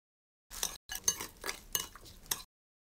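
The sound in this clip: A utensil stirs food in a pot, giving a quiet run of scraping swishes and metallic clinks that starts after a pause, briefly breaks off, then carries on steadily before stopping. No one talks.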